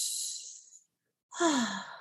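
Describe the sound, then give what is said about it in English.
A tense breathing demonstration: a strained, hissing breath lasts under a second, then after a short silence comes a forceful exhale with a voiced sigh that slides downward in pitch. “Tense breath would look and sound something like this.”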